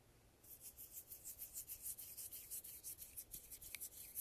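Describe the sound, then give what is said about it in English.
Hands rub together in a soft, faint swishing, with many quick back-and-forth strokes in a steady rhythm, alone and without talk. “the rubbing of hands together, the flicking of your nails,”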